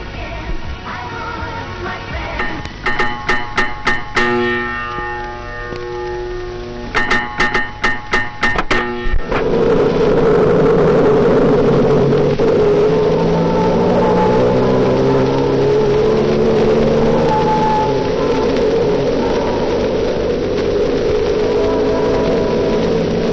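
A taxi's car engine runs as a loud, steady rumble and whir that holds for a long stretch, coming in after a passage of rhythmic, tonal pulsing; no talk.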